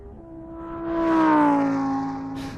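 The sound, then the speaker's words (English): An Aston Martin car driving off, its steady engine tone swelling louder through the middle and then easing slightly while holding a smooth, humming pitch. “All right, so Mary, now are we going to drive back to New York in the Aston Martin, or are we flying? I'll take the Aston Martin. Let's go.”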